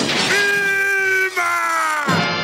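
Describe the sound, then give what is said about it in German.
A loud, sustained cartoon scream comes from the stone-age father character of a 1960s American animated sitcom. The raw, strained yell holds for about two seconds, with a brief catch near the middle. “Und Branding ist außerdem durch einen Schrei für immer mit einer berühmten Cartoon-Serie verbunden. Achtung, es wird laut.”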